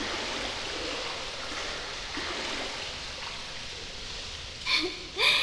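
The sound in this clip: Bath water being pushed into waves: a steady, rushing watery wash that sloshes continuously, followed by two brief, brighter splashes near the end.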